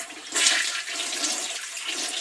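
A toilet flushes with a loud surge of rushing water that holds as a steady, broad gush throughout.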